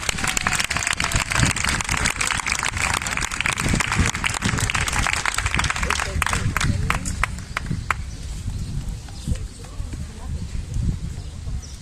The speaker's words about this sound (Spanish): Por favor, un aplauso.